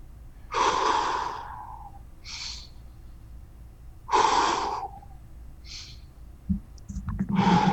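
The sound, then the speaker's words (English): Deep breaths drawn and released slowly, each a loud, airy whoosh, with shorter, softer breaths between the big ones and a few low knocks near the end; no talking. “i'm going to take three deep breaths and start”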